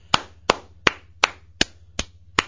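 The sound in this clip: Slow, steady hand claps greet a person being congratulated, seven sharp, evenly spaced claps about a third of a second apart, each crisp and fairly loud over a low, faint hum.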